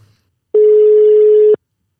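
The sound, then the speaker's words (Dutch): Ringback tone of an outgoing phone call to a client, heard as a single steady mid-pitched tone lasting about one second, alone with silence before and after. “zullen we die gewoon eens even bellen? Ja, doe we eens een poging. Gaan we proberen.”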